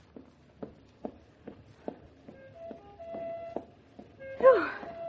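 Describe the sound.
Footsteps of people walking, a steady, evenly paced series of light, regular steps that stays fairly faint throughout.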